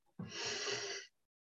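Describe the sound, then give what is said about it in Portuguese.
One deep breath, drawn as a long, airy rush that lasts just under a second, then stops sharply, heard alone with no talk around it. “fazendo uma respiração profunda”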